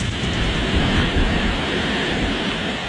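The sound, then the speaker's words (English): Roaring wind from the eye wall of Hurricane Lala, a Category 1 storm brushing the southern tip of Hawaii's Big Island, forms a loud, steady, dense rush with no pauses. “That's the sound of the eye wall of Hurricane Lala brushing the southern tip of Hawaii's Big Island.”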